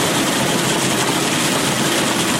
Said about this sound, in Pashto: په دې ماشینونو کې د کروندګرو لخوا د باغ څخه ټوله سوې پسته پاکیږي